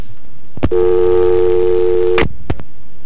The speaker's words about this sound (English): And again, a hang-up.